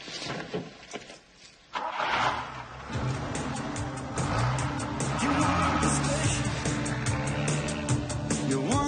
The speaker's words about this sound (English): They stare at each other. I got something to do today. You want to come with me? Huh? They drive off.